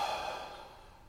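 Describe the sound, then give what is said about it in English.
A deep breath during a breathing exercise comes out as a soft, airy, sigh-like exhale that fades steadily over about a second. It is faint, with no voices. “Breathe again, please. One more time.”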